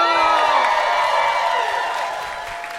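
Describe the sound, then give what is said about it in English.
A live audience cheers, whoops and applauds at a festival show in the Ted Rogers Cinema, a loud, dense roar of voices and clapping that slowly fades over a few seconds. “Yes, we are here at the Hot Docs Podcast Festival at the Ted Rogers Cinema, recording in front of a live studio audience.”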